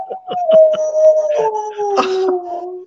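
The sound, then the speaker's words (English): Dog whimpering and howling: a long, wavering, gently falling whine overlaid with quick yips and whimpers, loud and continuous throughout. “That's our dog.”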